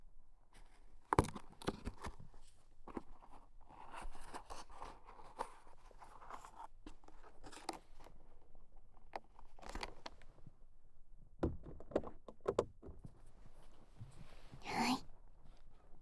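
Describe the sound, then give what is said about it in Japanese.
Cotton swab packaging being opened gives off many faint crinkles, rustles and sharp little clicks in an uneven, scattered rhythm. “綿棒を開けるね。”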